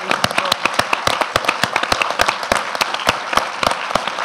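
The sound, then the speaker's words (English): Audience applause at a film screening, with many sharp, distinct handclaps crackling in a steady, dense stream throughout. “He deserves a round of applause.”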